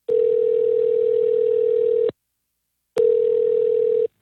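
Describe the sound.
A telephone line tone sounds as a caller rings a contest winner. Two long, steady, low-pitched tones, each about two seconds, are separated by a brief silence, with no voices.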